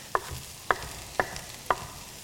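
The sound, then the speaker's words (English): A knife dices a pile of leafy greens on a cutting board with four sharp, evenly spaced chops, each a crisp, clear thud with quiet between. “And then I'm gonna come the other way and just do a few dices.”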